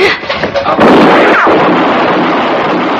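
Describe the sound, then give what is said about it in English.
Gunshot fired in a staged drama scene: after a brief quiet lead-in, a single loud blast bursts out and trails into a long, rough, rumbling noisy decay. “No more! Don't shoot again. Just stand easy, mister. You shot him. You shot my boy.”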